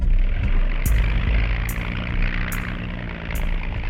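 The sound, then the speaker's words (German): A C-54 Skymaster propeller aircraft landing at Tempelhof airfield gives a loud, steady droning roar of engine noise, with four faint, regularly spaced high ticks over the rumble. “Alle drei Minuten landet auf dem Flugplatz Tempelhof eine C-54 Skymaster.”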